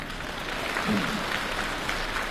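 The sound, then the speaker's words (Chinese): A theatre audience at a comic crosstalk performance gives thin, scattered applause. The clapping is soft, steady and even for a couple of seconds. “谢谢您这么稀稀拉拉的掌声， 谢谢 大家。”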